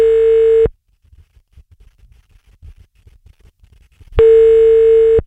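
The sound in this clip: A telephone tone plays while a number is being called: two loud, steady, buzzing tone bursts separated by a gap of a few seconds that holds only faint soft noises.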